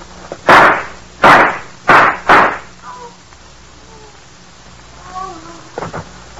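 Four loud, sharp gunshots in a radio drama fire in quick, uneven succession, followed by a stretch of faint, quiet sounds.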